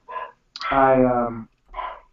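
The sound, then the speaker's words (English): Dogs barking loudly: a short bark, then a longer drawn-out, slightly falling howling bark, then another short bark, with brief silences between. “Excuse my dogs. They're really loud.”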